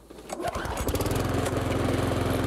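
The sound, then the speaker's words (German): A petrol lawn mower, one of three models compared for noise, runs in a garden. Its engine builds up within the first half second and then holds a loud, steady, rattling drone. “Beim Nachbarn, wenn du Rasen mähst, ist es laut. Und ich glaube mal, der ist von unseren drei Modellen der geräuschintensivste.”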